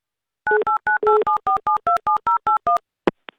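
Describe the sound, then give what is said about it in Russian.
Touch-tone telephone keypad beeps as a number is dialed for a live radio contest call: a quick, evenly spaced run of about a dozen loud two-tone beeps, followed by two brief clicks on the line. “Итак, в полной тишине набираю номер.”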